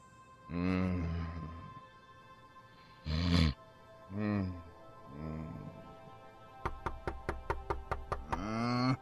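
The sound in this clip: Knocking on a door: a rapid, evenly spaced series of about nine sharp knocks comes after several loud, drawn-out voiced calls, with another call at the end.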